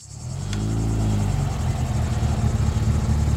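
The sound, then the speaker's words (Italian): A luxury car's engine roars in a loud, deep rumble that swells within the first half second and then holds steady and throbbing, with no voices. “il rombo di una macchina la sveglia di soprassalto”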